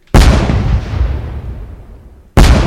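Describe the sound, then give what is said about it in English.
Explosive impact of a fireball striking the player in a video game, set off when a cannonball hits a wall: a loud burst with a long rumbling decay, then a second sharp burst at the end. “A fireball hits you.”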